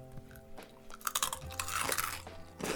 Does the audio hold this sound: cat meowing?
no